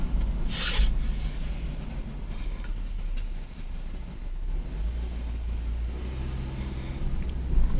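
Continuous low rumble and road noise of a car driving, a steady droning roar with faint rubbing and clicking textures running throughout and no voices.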